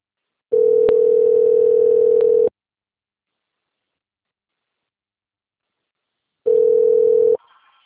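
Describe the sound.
Ringback tone of an outgoing telephone call: a steady, loud single-pitched tone sounds for about two seconds, stops for a long silent gap, then starts again briefly before cutting off.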